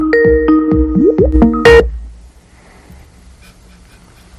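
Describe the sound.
Electronic call tones sound as a phone call is connected in a studio, a quick run of pitched beeps and sliding notes that stops abruptly, leaving near silence with faint background noise.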